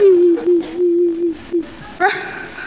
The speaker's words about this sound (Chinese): 你哭什么呀？别哭，憋回去。